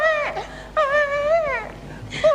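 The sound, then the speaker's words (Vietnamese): A small child crying in a few drawn-out, high, wavering wails with short breaks between them. “Cháu nó còn nhỏ, nó khóc như thế”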